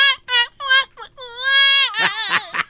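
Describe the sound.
A voice imitating a little girl crying: a few wailing, high sobbing bursts rising into a longer drawn-out cry, followed by laughter.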